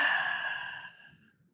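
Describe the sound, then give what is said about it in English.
A deep exhale through the mouth, heard alone: one long, breathy, airy sigh that starts strong and fades away over about a second. “take a deep breath in through the nose. Hold for 4, 3, 2. Exhale through the mouth.”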